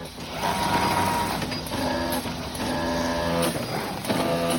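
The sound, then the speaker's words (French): A fabric cutting machine runs in a textile factory, cutting stacked layers of cloth. Its loud, steady mechanical drone carries whining tones that pulse and shift in cycles. “Et on passe ensuite à l'étape 6, qui est la coupe. Et la coupe, c'est la machine qu'on a devant nous.”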